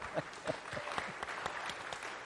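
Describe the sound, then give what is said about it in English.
An audience claps in steady applause at a Mother's Day gathering, a moderately faint patter of many hands that holds at an even level throughout. “So can we just have everybody give him a hand clap of praise?”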